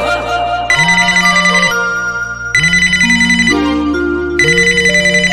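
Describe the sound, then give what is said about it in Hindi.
A phone ringtone plays while a call is being placed. A loud melodic phrase repeats three times over a steady low note, each burst sliding upward and ending on bright high tones. “फिर भी phone लगा ना उसको।”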